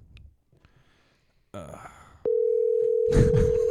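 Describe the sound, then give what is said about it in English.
A telephone dial tone sounds while a call is being placed: a steady, loud, unbroken tone starts partway through and holds to the end. Faint handling noises come before it, and a short breathy burst rises over the tone near the close. “All right, I'm going to call Mike. Again.”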